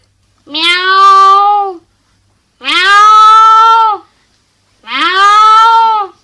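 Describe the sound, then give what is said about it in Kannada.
Cats fighting, heard as three loud, drawn-out yowls of even length, separated by short silences, with no other sounds around them. “ಆರನೇದಾಗಿ ಬೆಕ್ಕಿನ ಜಗಳ.”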